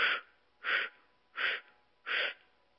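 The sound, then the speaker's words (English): Four short, breathy inhalations through a rounded O-shaped mouth during a breathing exercise. They are evenly spaced, soft and airy, each with a slight hiss, with quiet pauses between them. “Inhale to the count of 4 through the O mouth.”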